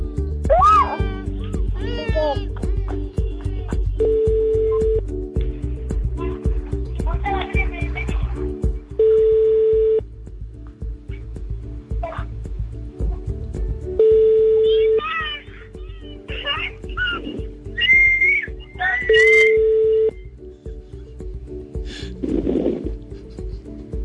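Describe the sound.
Ringback tones from an unanswered phone call: four long, steady tones at even intervals of a few seconds, with talk and other sounds filling the gaps between them.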